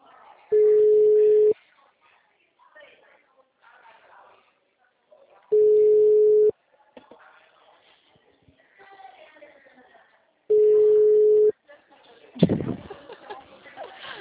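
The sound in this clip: An outgoing telephone call rings back with three steady tones, each about a second long and spaced roughly five seconds apart. Faint talk fills the gaps between tones, and a short, louder burst of sound comes at the end.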